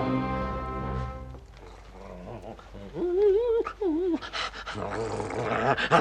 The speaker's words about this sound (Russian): Друзья мои, посмотрите, что делается с Диком. Собака в страшном волнении.